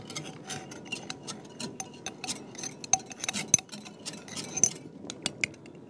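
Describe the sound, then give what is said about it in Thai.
A metal spoon scoops sticky sodium cocoyl, making many small, irregular metallic clinks and scrapes with a few sharper taps, fairly faint against quiet background noise. “อันนี้อาจารย์ต้องใช้ช้อนนะคะมา ค่อนข้างจะเหนียวนิดนะครับ”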